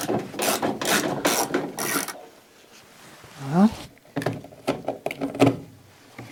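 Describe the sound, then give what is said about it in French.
A ratchet wrench clicks while removing two small nuts that hold a car's side mirror, a short burst of rapid ratcheting amid stretches of other noise. “Pour atteindre le rivet qui est derrière ici, il faut que j'enlève le rétro. Deux petits écrous.”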